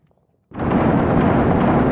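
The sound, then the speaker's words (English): A grenade explosion in the video game Six Days in Fallujah: after brief quiet, a sudden loud blast erupts and becomes a sustained, heavy roaring rumble that continues to the end. “Oh, grenade. Oof. Took that one right to the face.”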